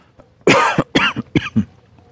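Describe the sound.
Harsh coughing after someone inhaled a bug: a rapid run of several throaty coughs in quick succession, loud and raspy, trailing off into quiet.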